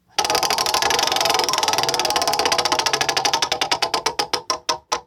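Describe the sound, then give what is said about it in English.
A spun prize wheel clatters with rapid ticks that start as a dense blur, then slow steadily into distinct, widely spaced clicks before coming to a stop. “I will spin the wheel.”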